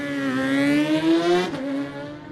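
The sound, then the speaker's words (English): A Suzuki GSX-R 750 racing motorcycle engine screams at high revs during a road race, its tone climbing steadily before dropping sharply as it passes, then fading. “Such a great sound, isn't it? 7, Liam Chalk, got this bike this year, the GSX-R 750, fourth quickest so far and away.”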